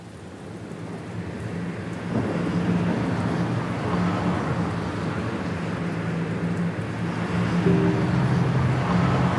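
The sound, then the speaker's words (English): Steady, continuous road rumble and hiss from a car driving eastbound on the I-80 interstate highway from Salt Lake City toward Colorado, with a low engine hum underneath and no talk. “I'm currently driving on the I-80 eastbound from Salt Lake City to Lakewood, Colorado.”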